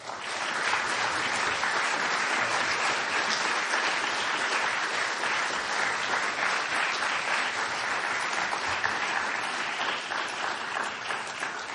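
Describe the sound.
Sustained applause from an audience welcoming speaker James Fallows at a Commonwealth Club event: a dense, even wash of many hands clapping that holds steady at a constant level for about twelve seconds, with no voices standing out.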